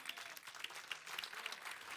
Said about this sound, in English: Give the Lord a hand clap if you love him.